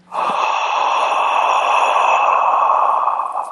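A long, steady exhale through an open mouth, an 'awe' breath taken during a meditation; one loud, airy breath sustained for over three seconds with no talk over it.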